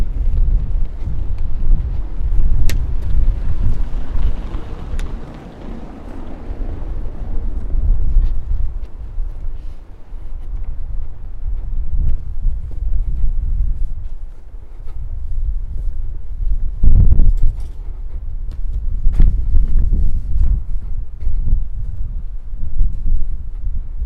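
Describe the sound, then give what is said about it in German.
Wind buffeting outdoors as a low, rumbling roar that swells and eases in gusts, heavy in the bass and steady throughout with no voices. “Hörst du den Wind?”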